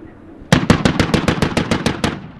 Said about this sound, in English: That's the sound of rebels fighting back with anti-aircraft fire amid calls of "God is great."